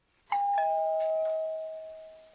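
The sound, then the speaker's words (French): A doorbell rings with a two-note chime: a higher tone, then a lower one that holds and slowly fades, with nothing else heard. “Lulu, on a sonné.”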